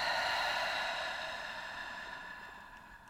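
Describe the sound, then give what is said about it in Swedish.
A long, slow breath out through the mouth: a steady, airy hiss that starts strong and gradually fades over about three seconds. “Och öppna upp för att ta ett djupt andetag in genom näsan. Och släpp långsamt ut genom munnen.”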